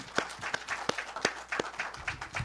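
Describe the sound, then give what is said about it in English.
Sparse, quiet clapping from a small group giving a brief round of applause, with separate sharp claps at irregular intervals and no steady wash of sound. “Can we give them a little round of applause, please?”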